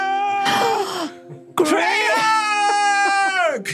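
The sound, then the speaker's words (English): A man's voice imitates a man sobbing on his knees: two wailing, crying bursts, a short one and then a longer drawn-out one with wavering, quivering pitch, loud and exaggerated. “He just kind of falls to his knees and is like sobbing as soon as he sees her.”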